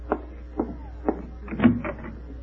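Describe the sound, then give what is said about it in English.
A door being answered in a radio comedy: three faint, evenly spaced knocks, then a short cluster of clattering door sounds. “Want me to answer the door? No, you go make the sandwich. I'll answer.”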